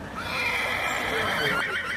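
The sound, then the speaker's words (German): Horses whinny from within a forest, a high, wavering neigh that holds for about two seconds at steady loudness with no other clear sounds. “Mitten aus dem Wald heraus wiehern auf einmal Pferde.”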